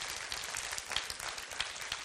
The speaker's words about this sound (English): Come on, let's give the Lord a great hand clap of praise today in his house.